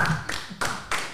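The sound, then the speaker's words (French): A few slow, evenly spaced handclaps from an audience applauding two radio hosts, each clap crisp and fairly loud, with no voices. “Ils nous applaudissent.”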